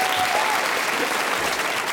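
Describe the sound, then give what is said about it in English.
An audience applauds, a dense, continuous wash of clapping that stays loud and steady throughout. “A round of applause to Laura.”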